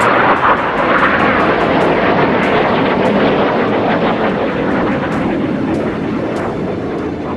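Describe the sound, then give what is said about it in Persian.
F-16 fighter jets fly low over Ankara with a loud, continuous roar of jet engines that stays broad and steady throughout. “جنگنده‌های F-16 در کنترل کودتاچیان برای ایجاد رعب و وحشت در میان مردم، پروازهای ارتفاع پایین را بر فراز آنکارا آغاز کرد.”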